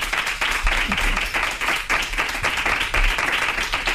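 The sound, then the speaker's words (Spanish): An audience applauds to welcome a guest, a former Barça women's football player, with a full, continuous wash of clapping that stays broad and even for the whole stretch and has no voices on top. “Un aplauso para María Teresa Andreu.”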